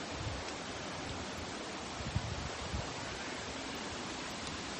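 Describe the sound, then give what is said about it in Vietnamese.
Water rushing in a mountain stream among trees makes a steady, hissing wash of noise. It is faint but continuous, with no clear rises or breaks. “Đây có suối nước nè, cây cối.”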